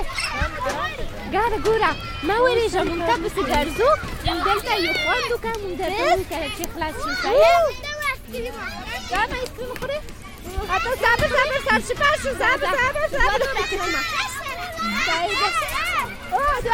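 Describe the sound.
Children play at a playground with a slide, their high voices laughing, shouting and chattering in a lively, continuous overlapping babble.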